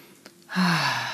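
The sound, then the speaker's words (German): A single deep exhale pushed out through the mouth: a quiet catch of breath, then a loud, airy, breathy rush that holds steady and tapers slightly at the end. No speech is heard. “wenn du soweit bist, atme nochmal einmal tief ein und über den Mund wieder aus.”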